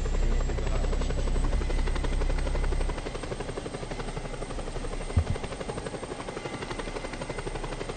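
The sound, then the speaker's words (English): Helicopter flying in a video game: a steady, buzzing rotor drone that runs throughout, dropping in level about three seconds in, with a brief thump past the midpoint. “if it takes this long to get around by helicopter, there are planes in the game too that go faster than helicopters”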